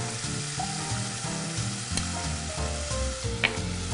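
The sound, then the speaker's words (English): Vegetables, onions and chopped garlic sweat in a soup pot with a gentle, steady sizzle and soft crackle that holds evenly throughout, with no talking. “So just gonna let all these vegetables here just sweat down nice and gently just until the onions are translucent.”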